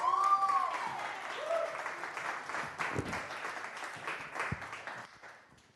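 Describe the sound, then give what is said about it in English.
Audience applause in a church as a speaker is welcomed to the stage: steady, dense clapping that holds for about six seconds before thinning out at the end. “So if you would just do me a favor, I know she's very nervous to come up here, but will you give a warm welcome to Heather Shepherds? Heather, come on up.”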